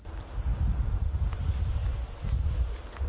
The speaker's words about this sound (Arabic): يوم بعد يوم وساعة بعد ساعة أخذت العاصفة تزداد وبدأ الثلج بالهطول